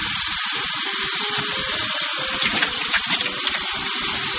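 Hot water pours into a yellow container, a steady, even rush of running water with a thin high whine above it and a few louder splashes midway, with no voices.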